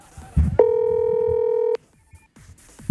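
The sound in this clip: A telephone ringback tone while calling someone: a single steady electronic tone of about one second, cut off abruptly and followed by near silence.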